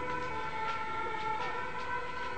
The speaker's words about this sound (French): C'est pas la police, c'est l'ambulance.